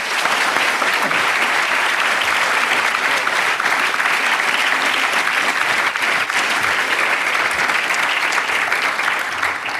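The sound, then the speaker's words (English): Audience applause at LSE welcoming Professor Stephen Walt, a dense, steady wash of clapping that stays loud and even for about ten seconds without a break. “And so with that, please join me in giving Professor Stephen Walt a warm LSE welcome.”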